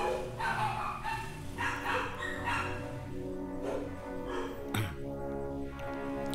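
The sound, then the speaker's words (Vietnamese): A pack of the neighbour's dogs barking, with sharp barks and yips repeating in irregular bursts throughout, fairly loud, over a steady droning background. “Ok, dừng 2 phút để cho đàn chó nhà hàng xóm sủa xong đã.”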